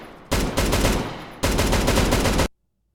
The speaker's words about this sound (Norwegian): Det er stort maskingevær. Det høres ut som denne M424 et eller annet.